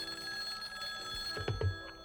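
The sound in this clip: A telephone rings with faint, continuous tones throughout, and a few low thuds come near the end.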